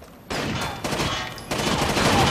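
Video game gunfire from a character blind firing: dense, rapid volleys of shots arriving in three loud surges that grow heavier toward the end.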